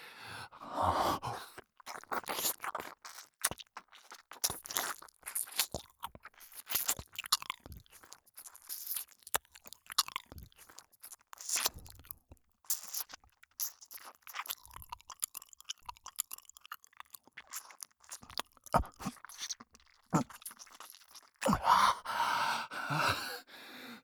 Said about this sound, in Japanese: 美味しいんだね。反対の耳も舐めたい。